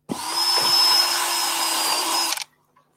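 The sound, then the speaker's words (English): A power drill bores into bamboo before screwing, running as one continuous, steady high whine for a little over two seconds, then stopping abruptly. “Always drill before you screw bamboo to stop your screws slipping out of position.”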